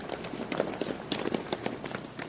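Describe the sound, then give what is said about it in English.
A woman, a dancer, runs down a hallway, her quick footsteps falling in a rapid, steady patter of light thuds throughout. “ran towards us”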